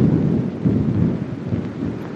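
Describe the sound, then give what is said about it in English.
Thunder rumbles low and heavy over a steady hiss of driving rain during a storm. The deep roll swells and eases in a few waves, loud and continuous, with no voices. “Cupping his hands over the glass, he peers out into the driving rain. Lightning flashes.”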